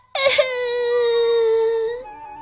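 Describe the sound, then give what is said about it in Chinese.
A voice imitates a child bursting into tears with one loud, sudden wail that holds a steady pitch for about two seconds before breaking off. “见到查克，最后他终于忍不住哇的一声哭了起来。”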